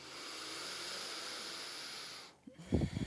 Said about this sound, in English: So let's inhale.